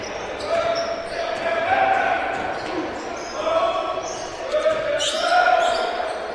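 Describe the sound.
A basketball is dribbled on the court during a game, with repeated bounces heard under a commentator's steady play-by-play talk.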